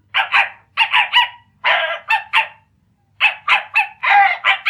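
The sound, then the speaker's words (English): A small dog barks many times in sharp, high-pitched yaps. The barks come in quick bursts of two or three, separated by short pauses, with a longer gap before a final run of rapid yaps. “are you afraid of a tiny little dog? Oh, no, sir. But if you will forgive my saying so, sir, I do not consider the animal in question to be a tiny little dog”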